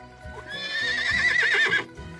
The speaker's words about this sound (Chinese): 小白马喝完水，焦急地原地转了几圈，对着大水牛叫了几声。